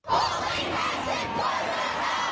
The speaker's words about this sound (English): Crowds were chanting expletive-laden slogans in Sydney, Melbourne, Hobart, Adelaide and Canberra.